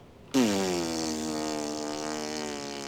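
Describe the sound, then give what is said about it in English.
A voice imitates a long fart while sitting on a toilet in a bathroom, making one sustained, loud buzzing raspberry tone that drops slightly in pitch at the start and then holds steady to the end. “It was a minute long fart.”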